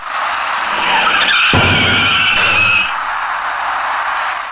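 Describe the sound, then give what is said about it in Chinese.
At a city intersection late at night, an electric bicycle skids and tips over, sliding into the right side of a turning taxi: a shrill squeal over road noise with a sudden heavy crunch midway. “这位直行中的骑车人发现那辆开始右转弯的出租车后，因为慌乱连车带人一起摔倒在路面上，而滑出去的电动自行车撞到了驾驶那辆出租车的右侧车身。”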